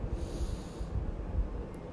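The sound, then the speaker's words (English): A deep inhaled breath taken during a guided relaxation exercise: a steady, airy rush of air lasting about two seconds, with no talking. “Take a deep breath in.”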